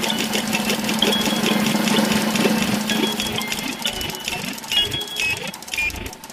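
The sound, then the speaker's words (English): A prize wheel spins with a rapid run of mechanical clicks that keeps a steady, busy rhythm at moderate loudness. “Now the only thing left to do is spin the wheel.”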